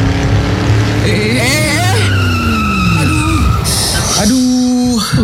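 A car speeding on a toll road: a loud engine roar whose pitch repeatedly climbs and drops, with squealing tires and a brief high whine over a steady low drone.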